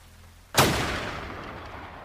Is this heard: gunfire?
yes